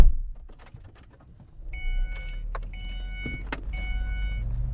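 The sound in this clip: Car driving into the desert: a steady low engine and road rumble runs throughout, joined midway by a few brief, high whirring tones and light clicks.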